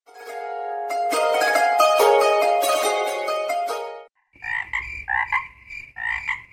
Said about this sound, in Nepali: मैले भ्यागुता र झ्याउकिरीको भजन सुनिरहेको छु।